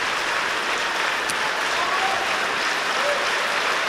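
Sustained concert audience applause for the Aarhus orchestra in the Symphonic Hall, a dense, even patter of many clapping hands at a steady level throughout, with no pauses.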